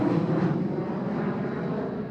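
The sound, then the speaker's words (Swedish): Steady, unbroken engine roar of an airplane flying to Helsinki, Finland, a broad low-pitched drone holding level throughout with no voices. “stiger ensam på planet som ska ta honom till Helsingfors i Finland”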